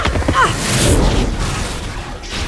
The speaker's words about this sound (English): From every side, disruptor beams filled the tunnel from nearby hidden gun ports.